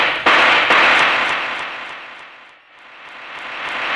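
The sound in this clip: Pistol shots ring out in a radio drama: a couple of sharp, loud cracks trail into a long, hissing tail that fades away and then swells back up. No one speaks during the shots.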